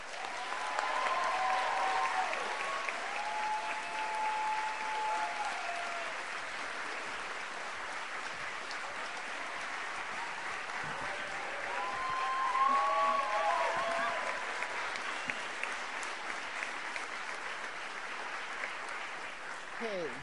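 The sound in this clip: Audience applause welcoming a speaker at a gathering on prison abolition: steady, dense clapping from a large crowd that continues without pause for about twenty seconds, swelling slightly midway.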